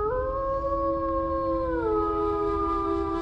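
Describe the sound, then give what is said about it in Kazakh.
A wolf howls at night on the steppe: one long, sustained, tonal howl held steady that steps down in pitch partway through, over a constant low rumble. “Қап-қара түн, қырда көкжал ұлыған.”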